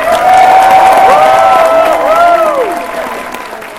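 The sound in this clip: Applause and cheering rise from an audience at closing ceremonies, greeting a guest of honor. The clapping is loud and dense, with whistle-like shouts over it, and it tapers off toward the end.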